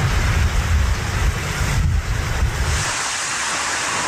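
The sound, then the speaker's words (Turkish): Strong storm wind blowing at around 80 km/h in Tekirdağ roars as a loud, steady rush with heavy low buffeting that eases after a few seconds, leaving a softer hiss. “Tekirdağ'da rüzgarın hızı saatte 80 kilometreye çıktı. Ağaçlar kökünden söküldü.”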